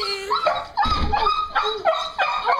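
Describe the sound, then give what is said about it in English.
Dogs greet soldiers coming home with excited whining and yipping: a few high, wavering whimpers whose pitch slides up and down in short bursts, strong and close in sound. “we've found a compilation video of dogs welcoming soldiers home. Okay. Here we go.”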